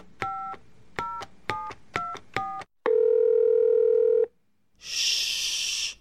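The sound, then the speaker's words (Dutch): A telephone number dialed on a touch-tone phone: five short, evenly spaced dual-tone beeps, then a single long steady tone that cuts off, a brief silence, and a burst of loud hiss. “lass mich ihm dialen”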